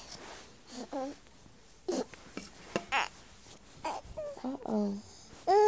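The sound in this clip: Baby fussing in short whiny, wavering cries and babbling bursts, moderately loud, between stretches of soft adult talk.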